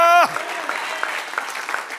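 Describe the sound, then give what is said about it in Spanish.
An audience applauding at a religious gathering: after a brief voice at the start, many hands clap in a steady, dense patter that holds at an even level to the end. “Denle otro aplauso, que Él se lo merece.”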